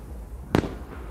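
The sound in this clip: A single New Year firework explodes in one sharp crack with a brief rumbling tail. Low, quiet background noise surrounds it.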